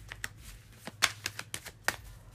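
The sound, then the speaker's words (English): Tarot cards are shuffled during a reading, giving a faint series of irregular, sharp clicks and soft slaps, spaced unevenly and heard alone. “Wow, so your cards don't want to come out.”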